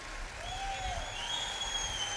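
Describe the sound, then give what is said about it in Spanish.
Audience applause at a live concert after a song dedication, a steady, fairly faint wash of clapping that holds evenly for about two seconds with no voices on top. “Por favor, un aplauso enorme.”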